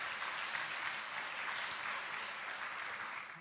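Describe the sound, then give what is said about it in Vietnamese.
An audience gives a round of encouraging applause during a spoken talk. The clapping is a dense, even patter that holds steady for about three seconds, then tapers off at the end. “Không đơn giản, vỗ tay khích lệ một chút.”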